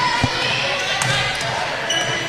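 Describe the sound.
A basketball is dribbled on a court during a women's game: a few low bouncing thuds, the first one sharpest, set against a steady, loud wash of arena noise.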